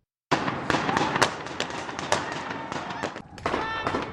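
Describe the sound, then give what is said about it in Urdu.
Gunfire rings out during a staged security drill at a friendly game in the capital of Burkina Faso. Many sharp, crackling shots come in rapid, overlapping bursts, pause briefly near the end, then resume. “دارالحکومت میں ایک دوستانہ game کے دوران گن fire, جس سے ایک پرامن جگہ دہشت کی حالت میں بدل گئی”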